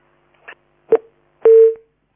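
Telephone line sounds after a dropped call: three short clicks, each louder than the last, with the final one running into a brief steady tone that fades out.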